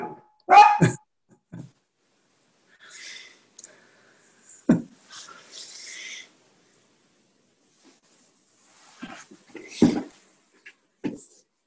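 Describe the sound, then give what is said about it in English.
A dog barking at squirrels in short, scattered bursts separated by quiet gaps, with one louder bark near the start and a few softer yips and whines following. “That's my dog. I'm sorry.”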